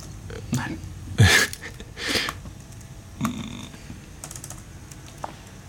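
Computer keyboard typing: irregular clicks and a few heavier key thumps, fairly quiet, with faint background noise between strokes.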